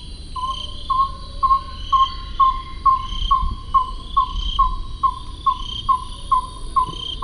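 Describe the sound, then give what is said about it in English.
Carthala scops owl from a threatened forest habitat calling: a long, evenly spaced run of many short, mid-pitched hoots, with a thin steady insect buzz underneath. “The Carthala scops owl wasn't discovered by science until 1958”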